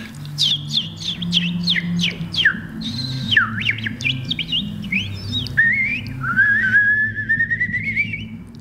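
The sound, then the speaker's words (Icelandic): Calls of an unidentified bird: a rapid string of sharp descending whistled notes, then slower swooping phrases and a long rising whistle, over a steady low hum. “Nei, ég veit ekkert hvað fugl þetta var. Þetta var einhver fugl.”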